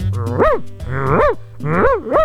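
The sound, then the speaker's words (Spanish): An excited dog vocalizes in three loud, drawn-out bursts of whining, howl-like yelps whose pitch swoops up and down, each burst separated by a brief dip. “Eso, ese perrito se emociona cuando yo lo saludo.”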